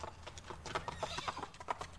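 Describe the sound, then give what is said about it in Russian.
Hooves of horses ridden off along a road toward a city, a faint, quick clip-clop of many hoofbeats with a short whinny among them. “Завернули молодцы коней и поехали по дороге к Киеву.”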